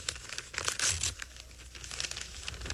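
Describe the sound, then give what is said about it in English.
Paper crinkling and tearing as a heavy birthday card envelope is torn open, a steady rustle with a louder ripping burst near the middle, with no voices. “Here, it looks like a birthday card, but it's awful heavy. Must be something in it. I wonder who sent me a birthday card. Well, you'll never know until you open it.”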